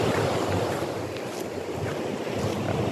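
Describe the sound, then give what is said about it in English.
Wind blows hard near a mountain, a loud continuous rushing gust with blustery buffeting against the microphone and no voices. “So after World War I, here comes the wind. Hear it. Woo.”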